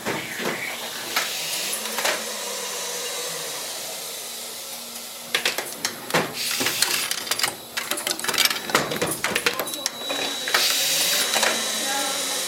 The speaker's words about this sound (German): da werden die leeren Gehäuse eingelegt und die rutschen dann stückchenweise nach unten durch. Und unten ist dann wieder ein Magazin und dann kommen die Kassetten, die fertigen, gestapelt raus. Jetzt geht's los.